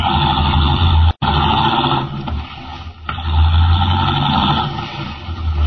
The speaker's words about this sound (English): Leaving the Teufel standing in the road, Henry Miller, the Atom Man, drives rapidly away.